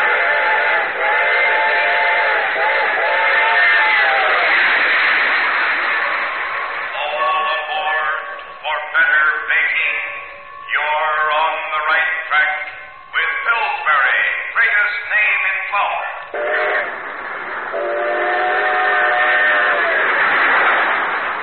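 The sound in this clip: Steam train whistle and rail noise, made as a radio sound effect for a Grand Central Station drama: long, sustained chord-like whistle blasts with a thin, muffled tone, broken in the middle by a stretch of choppy, pulsing rail clatter before a final long whistle.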